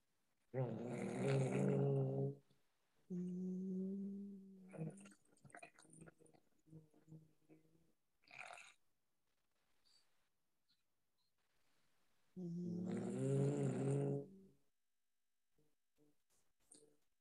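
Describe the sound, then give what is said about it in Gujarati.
Humming exhalations of bhramari pranayama, done together by a group on a call: three long, steady, low-pitched hums with soft breaths and faint rustles in the gaps between them. “હવે આપણે ભ્રામરી પ્રાણાયામ કરીશું. બે ઊંડા શ્વાસ લઈને ભ્રામરી પ્રાણાયામ, શક્ય હોય તો બધા જ પોતપોતાના અનમ્યુટ કરીને એક સાથે વાઇબ્રેશન થી કરીએ.”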